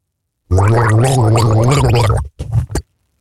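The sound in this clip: A man gargles a tune, a loud bubbling throat gurgle whose pitch shifts up and down for about two seconds, followed by a few short sputtering bursts.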